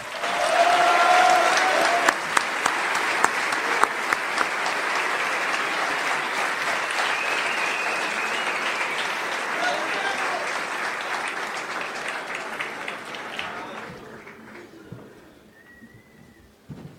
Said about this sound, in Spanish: le damos un muy fuerte aplauso a alguien que vino a homenajear al doctor Tangalanga.